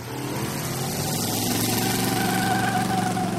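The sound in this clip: A car engine revs hard during a tire burnout, producing a loud, steady, rough roar that holds without a break and swells slightly toward the end.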